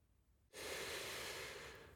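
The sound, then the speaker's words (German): A single deep inhaled breath, taken while looking out over a wide city view: a short quiet pause, then one long, loud, airy rush of breath that holds steady and tapers slightly at the end. “Ich nehme einen tiefen Atemzug und genieße den weiten Ausblick.”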